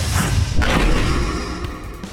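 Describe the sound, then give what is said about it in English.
An impact effect of a booster ball slamming into the side of a dome and knocking loose rubble and marble, a loud, dense crashing rumble that fills the whole stretch without easing off, with no talking. “You see the impact before you figure out what happened. You see a booster ball clear the net and hit the side of the dome.”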